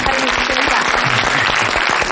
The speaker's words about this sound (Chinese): 咱们掌声欢迎。